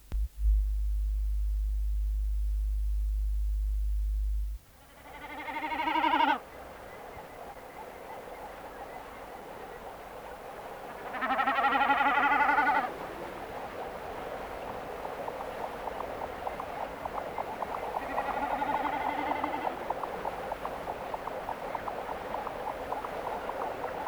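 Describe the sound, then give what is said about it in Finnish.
Eurasian curlew calls: three bubbling, trilling phrases separated by long pauses, the last one fainter. A steady low hum sounds briefly before the first call. “Iso kuovi.”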